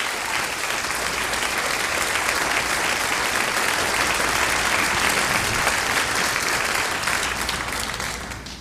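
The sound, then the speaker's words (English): A large church audience giving sustained applause to welcome a guest pastor to the platform: thick, even clapping that holds steady for several seconds and then begins to taper off at the end. “Would you put your hands together now, as together we welcome to the platform God's servant, Dr. Erwin Lutzer.”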